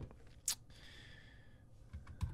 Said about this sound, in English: I typed it in.